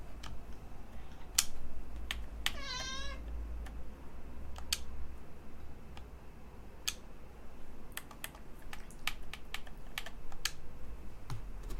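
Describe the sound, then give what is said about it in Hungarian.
A single short cat meow, a cat blocking a computer screen, sounds once over steady, rapid computer keyboard typing clicks. “Szia, cica, kitakarod a képernyőt. Ne nyávogj el, nincs rá okod.”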